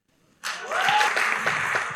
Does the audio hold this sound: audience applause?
yes